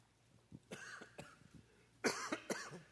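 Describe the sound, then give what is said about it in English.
Coughing after choking on drinking water: a faint run of several harsh, throaty coughs in uneven bursts, the last few stronger and closer together. “Excuse me. I guess I'm not so healthy right now. How do you choke drinking water? You ever do that? I just did it.”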